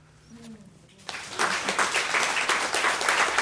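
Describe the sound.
Audience applause after a reading at Left Bank Books breaks out after about a second of quieter sound with a faint voice, then holds as a dense, steady clatter of many hands to the end.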